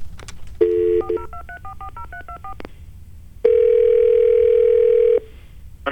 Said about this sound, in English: I'm going to call the airport weather, the ASOS.